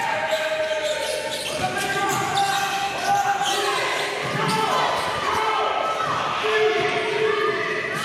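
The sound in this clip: Basketballs bounce repeatedly during a team practice of passing, dribbling and shooting drills, with dense overlapping thumps and voices calling out across the court throughout.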